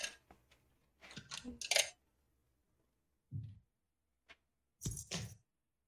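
Someone rummages for a pencil sharpener: faint, scattered clicks and rustling clatters come in a few short bursts separated by quiet gaps.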